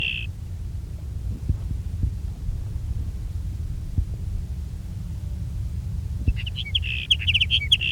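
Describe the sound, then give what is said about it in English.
A sage sparrow sings high, thin chirps: a short burst at the start, then a rapid run of bright notes over the last two seconds, above a steady low rumble. “There's sage sparrow number two.”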